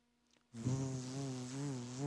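A bee buzzes inside a car, a loud, wavering insect drone that starts abruptly after a brief quiet moment and keeps going steadily to the end.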